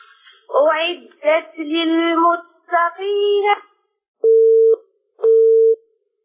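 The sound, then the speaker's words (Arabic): A telephone busy signal after a call disconnects: two steady, low, evenly spaced tones, each about half a second long, follow a stretch of talk. “اتصال انقطع.”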